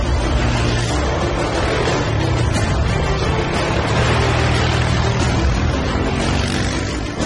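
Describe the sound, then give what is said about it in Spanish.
A military-use vehicle's engine runs and drives on with a steady, loud, rough roar and broad road noise that holds level throughout, with no clear pitch change and no voices. “Michael arrancó el vehículo y nos marchamos”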